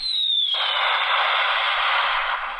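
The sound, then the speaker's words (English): A bomb-drop effect: a high whistle slides steadily downward, then gives way to a loud, sustained roaring blast of broad noise that holds to the end without fading. “Just like that bomb dropping, it's no fun to be there.”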